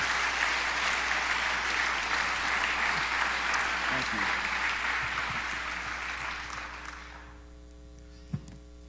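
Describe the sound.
A church audience applauds to welcome Sheriff Troy Morton to the platform. Steady, full clapping over a constant mains hum gradually thins and fades out near the end, followed by a single sharp knock.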